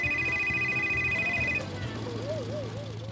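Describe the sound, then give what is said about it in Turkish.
A mobile phone rings with an incoming call, a rapid repeating electronic tone that runs for about a second and a half before stopping, leaving a low background hum. “Aa, annem arıyor.”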